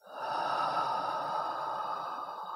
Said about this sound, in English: Let's take a deep breath in through the nose, out from your mouth.